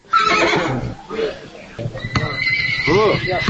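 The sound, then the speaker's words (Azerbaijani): A horse whinnies at a livestock market in Sabirabad where animals are sold, its neigh pulsing in arched waves near the end over the steady murmur of people talking. “Bazarda heyvanlar satılan yerdə at satanlar da var.”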